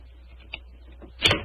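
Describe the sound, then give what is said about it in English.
A skeleton key works the lock of a locked door, giving a small faint click followed by a louder, brief metallic clunk. “Is the door locked? Yes, but I think the skeleton key will do the trick.”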